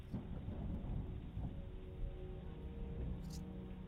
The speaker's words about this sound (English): But the rest of you wake up to the storm raging outside.